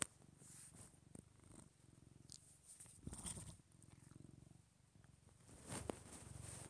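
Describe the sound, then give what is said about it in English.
Cat purring, a soft, continuous low rumble that pulses in a steady rhythm, faint and alone with a few light clicks. “I don't know if you can hear him purring”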